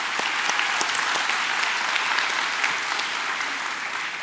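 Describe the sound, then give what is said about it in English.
Enthusiastic applause from a church audience welcoming two guests onto the stage, a loud, dense wash of clapping that holds steady throughout. “So help me welcome these two. Come on, give it up.”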